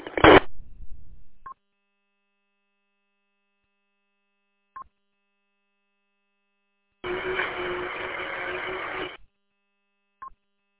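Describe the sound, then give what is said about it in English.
Short electronic beeps from a radio repeater: three brief tones spaced well apart, with bursts of harsh static at the start and a longer two-second burst in the middle. “nothing's coming out of the repeater on this end, though. Obviously, it's beeping.”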